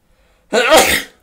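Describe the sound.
A single loud human sneeze, short and explosive, bursting out of near-silence and fading within about half a second.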